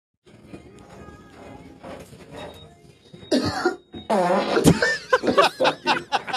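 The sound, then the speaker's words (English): A man farting in an elevator, played from a video: a quiet stretch of scattered low noise, then a sudden loud rasping burst, followed by several loud, voiced bursts. “So the video I'm about to play you is a guy walks in an elevator and he does like one of those little and then he farts.”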